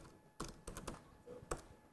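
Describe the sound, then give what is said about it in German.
Someone types on a computer keyboard, writing into a document open in a web browser. A few soft, scattered key clicks come in short bursts, faint and with no talk. “Was wir sehen, ist ein ODT-Dokument und ich kann ganz einfach direkt im Browser drin schreiben.”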